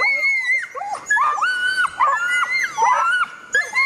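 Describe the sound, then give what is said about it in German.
A Nova Scotia duck tolling retriever gives its scream: a loud, shrill, piercing run of high-pitched whining cries. The cries come in many rapid, wavering bursts with no talk. “Dann haben die sogenannten Tollerschrei und der ist eben sehr laut, sehr schrill, geht gefühlt durch Mark und Bein.”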